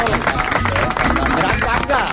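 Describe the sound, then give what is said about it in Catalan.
Applause from a studio audience: a dense, rapid clatter of many hands clapping, holding steady and fairly loud for the whole stretch. “Carai, un aplaudiment, eh?”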